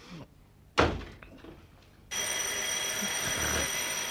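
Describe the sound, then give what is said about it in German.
An old telephone bell starts ringing again after a brief quiet spell and a single dull thump, then rings steadily, bright and metallic, through to the end. “Schon wieder Telefon.”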